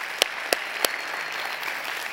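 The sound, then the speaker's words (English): Church audience applauding to welcome guests during a service: steady, even clapping from a crowd, with a few sharper single claps standing out near the start. “If you're a regular part of The Bridge, why don't we put our hands together this morning and let's welcome all of our guests today.”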